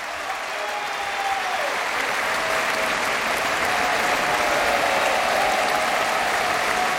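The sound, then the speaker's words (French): Enthusiastic applause from a concert audience at the Philharmonie de Paris: dense, even clapping that holds steady and strong for the whole stretch. “Vous l'entendez, le public de la Philharmonie est enthousiaste, le chef aussi”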